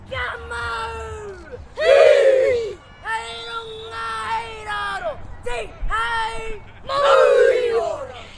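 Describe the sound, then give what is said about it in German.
Children perform a Maori haka as a traditional greeting before a match against New Zealand, voices chanting and shouting in unison in loud, forceful bursts separated by short pauses. “Der Haka, den die Kinder aufführen, ist ein traditioneller Tanz der Maori, der je nach Interpretation als Begrüßung oder Kriegstanz verstanden werden kann.”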